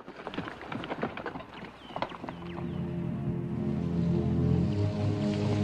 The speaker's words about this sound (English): Taylor stays behind and watches Douglas gallop across the prairie. He rides off into a wooded area.